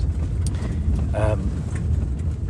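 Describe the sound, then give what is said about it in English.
A four-wheel drive vehicle drives across open desert near the northern Empty Quarter in Arabia, giving a steady low engine and road rumble throughout, with a brief voice in the mix. “I'm sitting, the noise you can hear is because we're now totally vehicle based.”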